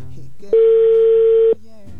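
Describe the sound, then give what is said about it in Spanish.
A ringback tone on an outgoing call to a wife's phone: one steady, mid-pitched electronic tone lasting about a second, with a voice talking just before and after it. “Ya está sonando, amigo, el teléfono de tu esposa.”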